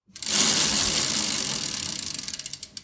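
A prize wheel being spun on a cooking show: its ratchet and pawl rattle in a dense, loud whir of clicks that spread out into distinct ticks as it slows and stops.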